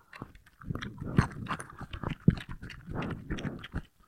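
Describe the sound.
Biting and chewing on raw bell pepper, with many crunchy, wet bites and chews in an irregular rhythm throughout and no talking.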